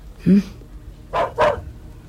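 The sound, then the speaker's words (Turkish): Dogs barking as police arrive at a house: a few sharp, separate barks with short pauses between them, loud against an otherwise quiet background. “köpeklere dikkat edin. Tutun şunları.”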